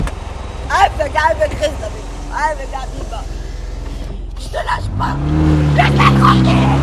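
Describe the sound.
A car engine starting and pulling away during a tense family quarrel; voices talk over a low hum first, then the engine note swells and climbs steadily in pitch as the car drives off.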